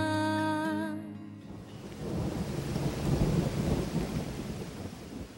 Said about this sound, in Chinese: 夜半，他被雷暴、闪电和走廊里嘈杂的声音惊醒。